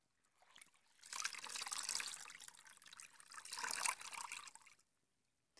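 Running water poured for washing someone, a soft flowing trickle that swells in two long surges separated by a brief lull, fairly faint and with no voices.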